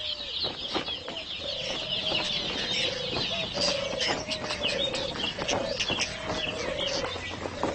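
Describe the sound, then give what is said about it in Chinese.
Nestling birds call while waiting for their parents to bring food, a continuous chorus of repeated high, thin chirps over steadier, lower clucking calls. “雏鸟焦急地等着父母送来美餐”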